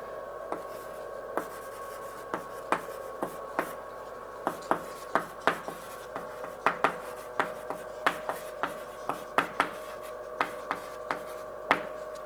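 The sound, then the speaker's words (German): Handwriting: many short, scratchy taps and strokes in an irregular rhythm, each one quick and crisp, over a steady low hum with no talk. “Ich fange schon mal an zu schreiben.”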